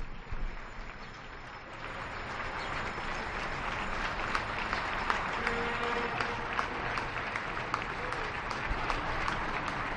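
Neighbours at their windows applaud at 8 p.m. during the quarantine, a faint, steady patter of many hands clapping that spreads out as a continuous wash of sound.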